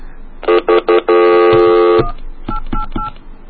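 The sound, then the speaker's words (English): Touch-tone telephone dialing: three short beeps, then one long held tone, followed by three fainter tones. “I'm going to try it one more time. Okay. Maybe I dialed wrong.”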